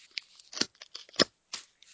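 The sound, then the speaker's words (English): A knife slicing into a cardboard box produces quiet, scratchy rasps in short uneven bursts, several crisp scrapes and tears with brief gaps between them. “Just cutting into that box. I love if we can actually hear it.”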